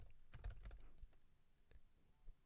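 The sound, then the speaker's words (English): Soft typing on a computer keyboard: quick light key clicks clustered early, then sparser taps trailing off, all faint and with no voices. “Let me type in melatonin gummies.”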